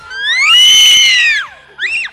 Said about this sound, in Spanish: ¿Cómo gritan mis amigos de la escuela secundaria?